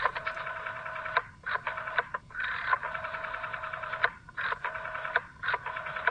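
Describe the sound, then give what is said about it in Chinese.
A rotary telephone dial whirs through a series of bursts of varying length, separated by short gaps. The bursts are fairly faint, with a buzzing, mechanical tone, at the opening of a pop song. “乜嘢岁月嘅见证？就系搅盘电话嘅声音。”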